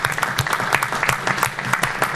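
Applause from a meeting audience, a dense and steady round of clapping that stays fairly loud and even throughout, with no voices standing out.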